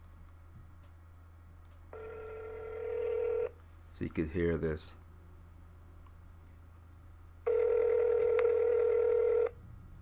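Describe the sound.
A telephone call on speakerphone to a number in Marathon, Florida: a steady tone plays, a man speaks briefly, and then one long ringback tone sounds over a low hum.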